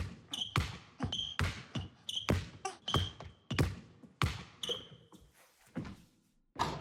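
A basketball bounces repeatedly in a steady dribbling rhythm, many sharp, hollow thuds about half a second apart, each fading quickly, with a brief pause before one final bounce.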